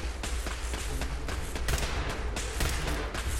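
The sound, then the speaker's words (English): Rapid gunfire from a ceiling-mounted turret in the Fallout video game, fighting synths. It is a dense, loud, continuous burst of sharp cracks with a few harder shots standing out. “Nick has triggered another turret out of the ceiling.”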